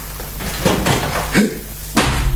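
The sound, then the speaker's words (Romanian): A window being opened, with a few short knocks, rattles and scrapes of the handle and frame in quick succession. “Să deschid fereastra.”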